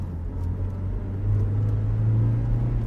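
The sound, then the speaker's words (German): Steady low engine rumble and whir from a car driving across Nuremberg, from southern Langwasser toward a football club's grounds. It grows slightly louder midway, with no talk. “Ich fahre mit Günther Koch von Nürnberg-Langwasser im Süden der Stadt, unweit des ehemaligen Reichsparteitagsgeländes gelegen, hinüber zum Vereinsgelände”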